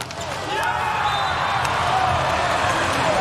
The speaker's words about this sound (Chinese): 王斌的大力挑发球